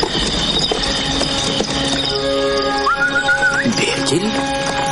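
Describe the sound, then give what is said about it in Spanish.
A horse-drawn wagon approaches in a Western setting, with a horse whinnying clearly partway through over a bed of hoof clip-clops and rolling wagon noise. “Mira hacia atrás y observa la silueta de un carro que se acerca.”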